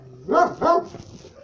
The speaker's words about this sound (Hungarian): Ez kutyám. Kutyuszka.